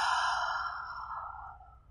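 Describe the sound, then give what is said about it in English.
A long, steady exhale during a guided breathing meditation: a single soft, breathy rush of air that fades gradually toward its end, heard alone. “One more inhale. And one exhale.”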